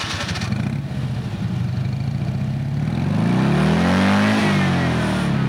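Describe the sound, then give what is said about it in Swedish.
Engine of a tuned 1964 Fiat 500 revving under the throttle, a loud, buzzy mid-pitched drone that climbs sharply in pitch and then drops back, with no voices. “Så här låter en lite trimmad Fiat 500 när den stolta ägaren trycker på gasen.”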